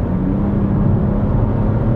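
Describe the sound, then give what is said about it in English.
A car cruising at about 50 miles an hour, giving a steady low rumble of engine and road noise with a broad tyre hiss, holding an even loudness throughout. “Now we speed up slightly to about 50 miles an hour.”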